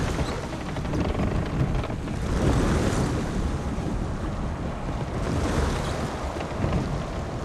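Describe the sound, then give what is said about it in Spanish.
Sea waves and wind roar steadily as a barge approaches the coast. The broad, constant wash of surf swells gently in loudness throughout, with no voices. “Una barcaza se acerca a la costa. La luna llena brilla sobre el horizonte.”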